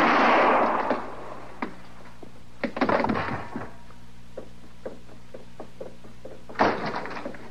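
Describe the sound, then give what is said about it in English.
Gunshots ring out during a confrontation as a marshal tries to make an arrest. A few sharp bursts are separated by quieter stretches, the first the loudest, with no talk over them. “I heard them shots.”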